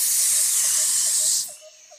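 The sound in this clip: A snake's hiss: a loud, steady, breathy hiss that holds for about one and a half seconds, then cuts off abruptly into near silence.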